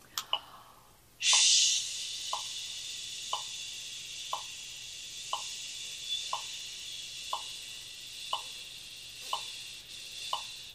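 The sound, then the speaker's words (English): A long, steady "shh" exhale during a rib-widening breathing exercise hisses continuously for about nine seconds, with soft regular ticks roughly once a second. “let's use shh this time. Inhale, ribs go wide, exhale to 10, keeping the ribs wide.”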